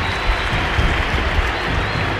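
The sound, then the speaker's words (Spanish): A stadium crowd at a football match applauds in a dense, loud, continuous wash of clapping, with a low crowd murmur beneath. “Se cayó el estadio con aplausos a Gary Medel”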